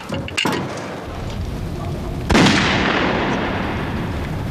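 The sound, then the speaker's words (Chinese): Two gunshots fired at a wooden target, each a sharp, loud crack over steady background noise. The second bang is followed by a long, rumbling decay. “有人射击”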